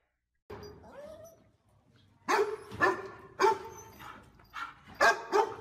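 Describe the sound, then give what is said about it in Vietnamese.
Dogs bark fiercely outside, a faint whine first and then a run of loud, sharp barks in uneven bursts that keep coming to the end. “Bỗng bên ngoài tiếng chó sủa vang lên dữ dội. Không phải một con, mà dường như đến mấy con.”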